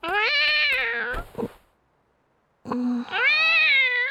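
Cats meow in two long, drawn-out, high calls, loud and alone, separated by a short pause.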